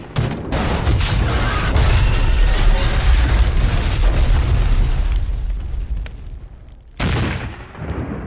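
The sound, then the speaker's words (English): A gun turret explodes and burns: a loud, broad rumbling roar sustained for several seconds that slowly fades, followed by one more sharp burst near the end, with no talking. “He pulled at the turret until he broke it from its mount, then tossed it at the last remaining turret, which went up in a blaze of glory.”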